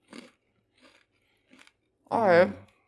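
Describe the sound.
Chewing of semi-soft cheese, three soft, brief mouth sounds spaced apart and faint, followed by a louder sustained voiced hum from the person eating.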